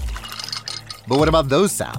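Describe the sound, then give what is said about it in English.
Water pours from a Samsung Bespoke refrigerator's internal water dispenser into a built-in pitcher with a flavor infuser, a gurgling fill with shifting pitch that follows a brief spoken question. “Those are the sounds of the Samsung Bespoke Refrigerator's beverage center with internal water dispenser and built-in pitcher with flavor infuser for crisp,”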